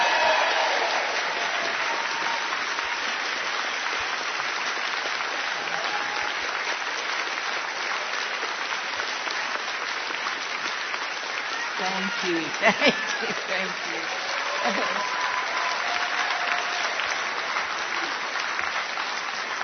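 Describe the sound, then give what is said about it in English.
An audience at an ACB gathering applauds, a steady, sustained wash of clapping that holds at an even level for the whole stretch, with a brief louder burst partway through. “Let's give her a big ACB round of applause. Come on, you guys.”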